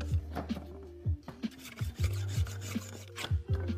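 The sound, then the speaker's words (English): A spokeshave shaves a wooden handle being fitted to a vintage axe head, giving many short rasping strokes in an uneven rhythm, each a dry scraping burst, moderately loud and alone. “Fit the handle and work on the best you can. The rub marks will tell you where you need to remove, and a spoke shave works the best.”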